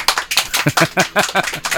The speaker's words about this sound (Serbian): molim vas jedan spontani aplauz